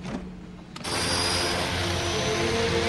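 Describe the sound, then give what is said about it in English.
A small light aircraft takes off. After a brief quieter moment its engine suddenly surges into a loud, steady droning roar with a sustained tonal hum. “Billy takes off into sunshine in a little blue and white light aircraft with Barbo sitting behind him in the hold.”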